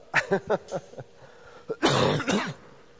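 Coughing and throat clearing from a clogged throat: a run of short, throaty grunting bursts, then two longer, harsher rasping coughs, loud and alone.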